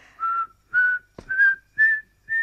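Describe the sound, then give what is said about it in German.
A person whistles five short, clear notes with even gaps between them, each about a third of a second long. The notes climb slightly in pitch, and a single sharp knock falls between the second and third notes. “Pfeif nicht!”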